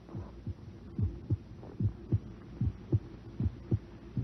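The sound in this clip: A pounding heartbeat sound effect, made of low, muffled double thuds that repeat in a steady, fairly quick rhythm over a soft hum.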